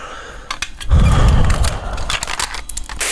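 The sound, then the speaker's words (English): Clicks and clatter of a cassette tape being put into a player: a few sharp mechanical clicks and a brief low thump, then lighter handling noises, with no voices. “Just bear with me, I've got to put the tape in.”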